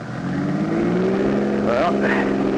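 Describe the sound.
Car engine revving hard as the driver steps on the gas: a loud, continuous roar whose pitch climbs steadily over the first second or so, then holds at a high, strained level to the end.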